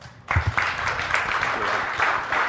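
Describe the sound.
An audience breaks into applause welcoming a speaker, the clapping bursting in abruptly after a brief quiet moment and continuing as a busy, uneven patter of many hands.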